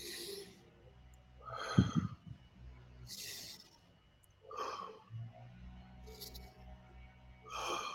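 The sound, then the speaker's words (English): Deep breathing during a calming stress exercise: a few slow, audible inhales and exhales with a slightly raspy, snort-like edge, separated by quiet pauses. “Three deep breaths.”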